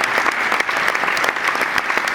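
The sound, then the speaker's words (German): Loud, dense applause from an audience at an Ash Wednesday gathering where volunteers and an athlete are being honoured, with rapid, even clapping sustained throughout and no voices standing out. “Viel Applaus”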